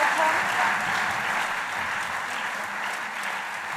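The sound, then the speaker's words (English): Applause from a live comedy audience in Melbourne, dense, steady clapping that holds at an even level from start to finish without a break. “Put your hands together and make incredible Melbourne Guilty Feminist woo-hooing noises for the wonderful Eugenia Flynn!”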